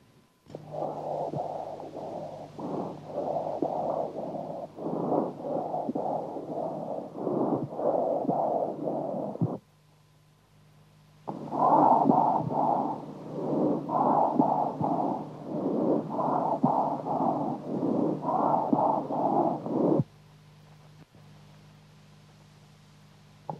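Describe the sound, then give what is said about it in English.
Whispered voice sounds heard through a stethoscope on the chest, first a normal muffled whisper and then whispered pectoriloquy, each as a long run of soft rhythmic breathy syllables separated by a short pause. “Normal whispered sound followed by whispered pectoriloquy.”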